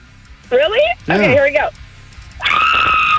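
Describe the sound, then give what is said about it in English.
A woman gives a high, sustained scared scream on request on a radio show. It comes after a couple of short voiced bursts and stays piercing and steady until the end. “That's your excited scream, but what's your scared scream? I feel like I'm going to, like, ruin everyone's eardrums if I actually did.”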